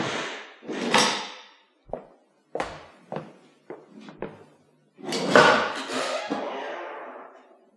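A door being shut and locked: a few sharp knocks and clicks in quick succession, followed by a longer, rough scraping and rattling noise.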